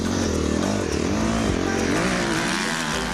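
Motorcycle engine revving while cornering, a loud, continuous rough roar whose pitch wavers up and down throughout, with no pauses.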